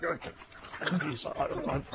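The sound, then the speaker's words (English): A small mixed-breed dog whimpers and yips in a kitchen, its short, uneven whines rising and falling over people talking. “Strange looking dog, but friendly.”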